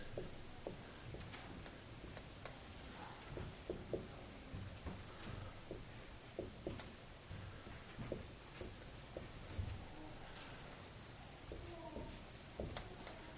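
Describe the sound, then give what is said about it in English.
Faint writing on a board: soft, scratchy taps and strokes come in an irregular stream, quiet throughout. “I would like to write the title on the board.”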